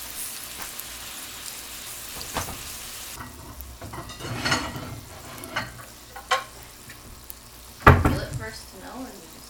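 Food sizzles in a hot pan, a steady crackling hiss broken by a few sharper pops and bumps, with one louder clatter near the end.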